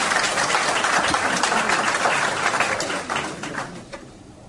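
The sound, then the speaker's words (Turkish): Applause from the audience at a congress on special education for visually impaired people, as a speaker is welcomed to the microphone: steady, dense clapping that gradually thins and fades over a few seconds. “Açış konuşmasını yapmak üzere Altınokta Körler Derneği Eğitim Sekreteri Sayın Halil Köseler'i alkışlarınızla mikrofona davet ediyorum.”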